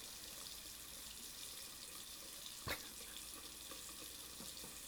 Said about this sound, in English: Come on, go ahead. Wash your face. I am.